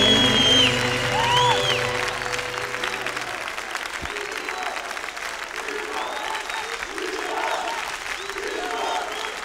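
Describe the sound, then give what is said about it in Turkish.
An audience applauds a songwriter: a sung phrase with music opens, then sustained, dense clapping follows once the song ends and continues evenly to the close. “Ustayı alkışlayın, ustayı, ustayı, ustayı alkışlayın, ustayı. Ustayı alkışlayın, ne güzel yazmış.”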